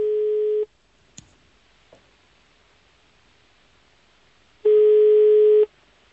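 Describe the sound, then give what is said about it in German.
A telephone line tone plays while a call is being connected: two steady, mid-pitched tone pulses separated by a long quiet gap, with a faint click in between. “Der Teilnehmer wird angerufen.”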